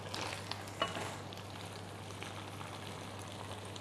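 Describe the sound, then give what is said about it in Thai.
Chili and basil leaves sizzle as they are stir-fried in a pan, a dense, even hiss throughout with two faint clicks near the start and a low steady hum underneath. “โอเคคนหนึ่งรอบแล้วก็ปิดไฟได้เลยนะคะ”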